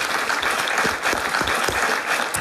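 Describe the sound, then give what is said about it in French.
Audience applause, loud and dense, with continuous clapping that fills the whole stretch and no talk over it. “Qui s'applaudit en tout cas.”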